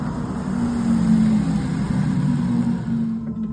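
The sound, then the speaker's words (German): Synthesized driving sound of a BMW iX, the large electric SUV on sale since 2021: a steady low droning hum with a faint high whine, continuous and alone, thinning out at the very end. “kommt erstmal der Sound. Der Sound. Ja. Ist halt ein Elektroauto, ne?”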